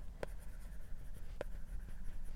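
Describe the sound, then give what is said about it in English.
A pen scratches across paper as something is written down by hand, a faint, continuous rustling scrawl broken by two sharper tapping strokes, with no voices. “let me write this down too.”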